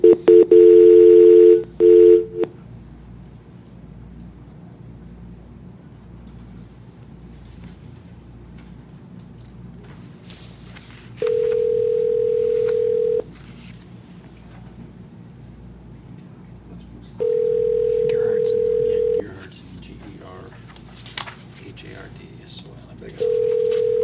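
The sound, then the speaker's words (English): Telephone tones while a caller is patched in: a quick burst of dialing beeps, then long, steady ringing tones that repeat at even intervals over faint background noise. “Let's try to patch in Kevin. You'll be on hold for a moment.”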